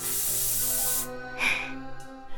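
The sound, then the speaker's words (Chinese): Artificial snow spray hisses from its can in one steady, loud burst of about a second, then cuts off and gives way to faint handling noises. “人造雪花喷雾，怎么样，好看吧？”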